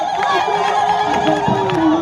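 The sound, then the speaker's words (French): A crowd cheering as climate-activist cyclists arrive in Bayonne after an 800 km ride: a dense, continuous hubbub of cheers, shouts and chatter at a steady, high level. “Ça y est, les cyclistes arrivent et sont accueillis en héros.”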